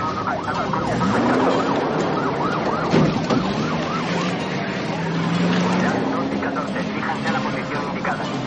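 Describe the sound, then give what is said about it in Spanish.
Police car sirens wail as two patrol cars chase a car across open country in a 1991 road movie. Repeated rising and falling siren sweeps sound over a steady low rumble. “Dos coches policía que han visto la maniobra salen tras ellas.”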